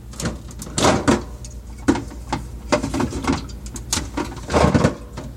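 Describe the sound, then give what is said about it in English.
A refrigerator door is opened in a kitchen, heard as a string of muffled thumps, rattles and brief rustling bursts of irregular rhythm and moderate loudness, with no one talking. “So, I'm going to open up the refrigerator, find a can of pop,”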